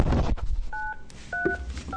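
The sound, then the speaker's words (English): Telephone keypad tones dial an extension on a health center's phone line: a few short dual-pitched beeps, steady and clear, separated by brief gaps over a faint background hiss. “If you know the extension of your party, you may dial it now.”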